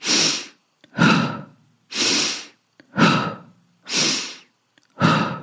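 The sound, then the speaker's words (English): Forceful breathwork breathing, alternating a sharp nasal inhale with a hard exhale through the mouth, three loud, evenly paced cycles separated by brief silences and no talk. “The breath pattern we will be going with in this session is the halo active breath. This is a forceful inhale through the nose and forceful exhale out the mouth.”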